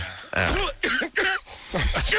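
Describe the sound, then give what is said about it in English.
Several rough coughs and throat-clearing sounds come in a few separate bursts with voiced, tonal edges and short gaps between them. “Play it backwards. Play the cough backwards.”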